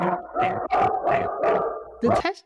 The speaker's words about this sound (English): it gets your dog very excited. That wasn't mine, but...